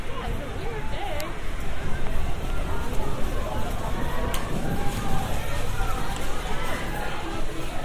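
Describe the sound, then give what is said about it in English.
Inside a seaside amusement arcade full of gaming machines, a dense, constant din of clattering, electronic noise and background voices runs without pause, loud and even throughout. “Here we've got the Palace of Fun. So this, I guess, is the arcades.”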